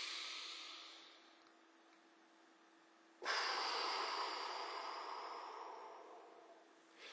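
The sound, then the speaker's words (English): A slow, deep breath taken during a guided emotional-tapping exercise: a soft inhale fades away, then after a pause a longer, louder exhale slowly tapers off. No one talks over it. “Good, take a deep breath.”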